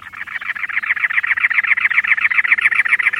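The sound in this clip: A cactus wren calls while building a nest in early March, giving a long, loud run of harsh, rasping notes repeated rapidly and evenly without a break.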